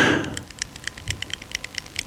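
A pen clicks in a quick, irregular run of many small, crisp plastic clicks after a brief burst of noise at the start.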